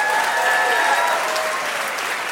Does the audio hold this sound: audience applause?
yes